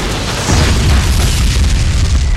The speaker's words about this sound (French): Charge de la police qui envoie des dizaines de grenades.